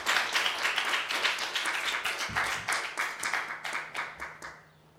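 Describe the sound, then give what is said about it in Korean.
Congregation applause welcomes a pastor in church, a dense and steady burst of many hands clapping that thins and fades out near the end. “목사님 나오셔서 박수 해주십니다.”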